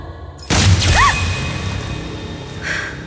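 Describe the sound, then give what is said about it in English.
A warning gunshot cracks out sharply, its blast trailing into a long swooshing, rumbling tail that slowly fades. “That was a warning shot. The next one goes through your skull.”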